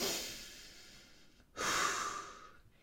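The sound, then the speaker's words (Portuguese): Deep calming breaths from a person trying to settle down while upset: a long, airy breath, a brief pause, then a louder, rushing breath that slowly fades away. No talking. “Calma, vou-me acalmar. Respira, bomba.”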